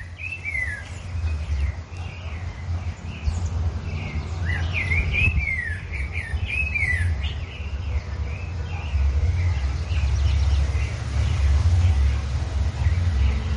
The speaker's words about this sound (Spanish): Estamos escuchando un contrapunto de distintos pájaros. Vemos cómo uno le canta y el otro le contesta.